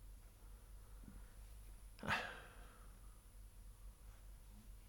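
A dog whines in a film scene, a single short, faint, high-pitched whimper over a steady low background hum.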